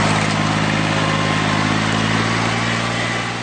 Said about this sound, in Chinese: 走进南泥湾千亩稻田，插秧机在田间轰鸣穿梭，一排排嫩绿的秧苗被整齐地插入泥土。